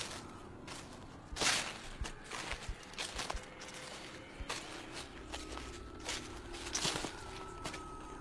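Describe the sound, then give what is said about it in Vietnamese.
Footsteps crunching on dry leaves, a faint, irregular series of soft rustling crunches over a low background hiss. “Tiếp theo đó là tiếng vỗ cánh phành phạch, rồi tiếng bước chân dẫm trên đám lá khô xào xạc.”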